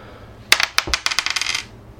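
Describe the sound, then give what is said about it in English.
A coin is flipped and lands on a hard surface: one sharp metallic strike, then many quick ringing clinks that speed up as it bounces and rattles to rest, alone with no voices. “All right, I'll flip a coin.”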